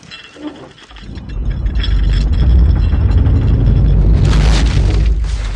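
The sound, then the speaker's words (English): Film sound effect of a dream city exploding in puffs of debris: a loud, deep rumbling roar swells after a quieter opening and holds steady, with brighter crackling debris bursting through near the end. “That's my favorite scene in Inception, because it ends with the dream city exploding in puffs of debris”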